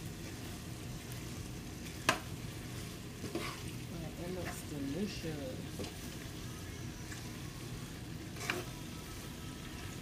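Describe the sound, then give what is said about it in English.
A creamy sauce made with whipping cream simmers in a pan with a quiet, steady sizzle and gentle bubbling. A couple of brief, sharper clicks stand out from the soft hiss. “We're gonna let it simmer.”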